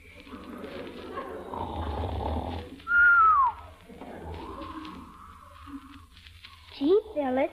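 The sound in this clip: A man snoring in his sound sleep, a low, rumbling snore with a whistling tone on the breath, while other voices talk around it.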